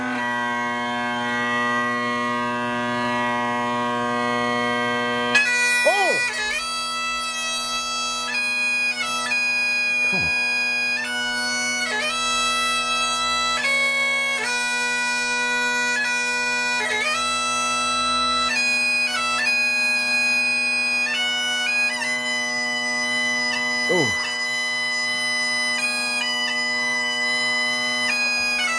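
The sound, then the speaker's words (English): Bagpipes played aboard the International Space Station: a steady low drone holds throughout while a chanter melody of sustained and shifting notes runs above it, loud and continuous with no talking. “You're listening to News Talk 1010 playing you the sweet sounds of the bagpipes from earlier this week as played in space.”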